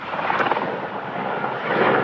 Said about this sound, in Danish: Helikoptere bevæger sig gennem kulsorte skyer og kaster vand ned på det store flammehav, der breder sig over de knastørre græsmarker.